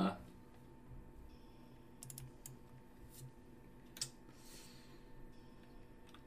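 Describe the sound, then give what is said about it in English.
Typing on a computer keyboard gives quiet, irregular key clicks: a few scattered taps and short bursts with pauses between, plus one slightly sharper click. “I'm gonna type in”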